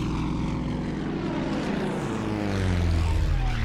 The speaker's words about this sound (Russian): Самолет заходит на третий круг.